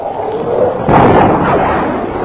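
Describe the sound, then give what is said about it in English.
A sonic boom from an F-92K jet breaking the sound barrier in a dive: a single sudden, heavy burst strikes partway through, then fades into a loud, sustained rumbling roar, with no voices. “There's the boom. Yeah. Jordan's gone through the sound barrier. He must be diving to do that.”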